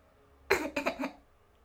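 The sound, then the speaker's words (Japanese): Short throat clearing by one person: a sharp first burst followed by two quick, rougher pulses, lasting under a second and heard alone against near silence. “恥ずかしくて隠そうとして咳払いしちゃった。”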